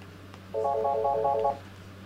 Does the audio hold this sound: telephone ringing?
yes